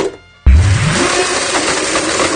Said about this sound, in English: to the Apple Store, they buy brand new iPhones, and then put them in a blender to see what happens, and this is what happens.